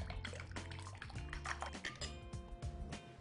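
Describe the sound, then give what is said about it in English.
Soft wet sloshing and dripping as buttermilk, chopped onion and an egg are mixed together in a bowl and the yolk is broken up, heard as faint, irregular liquid squelches throughout. “I'm going to mix these wet ingredients together a little bit, break up that yolk.”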